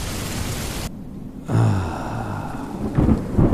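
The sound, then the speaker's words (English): Rain hisses steadily in a warm thunderstorm, drops away briefly, then returns with a deep rolling rumble of thunder beneath the downpour, the noise swelling again near the end. “And then a storm rolls in.”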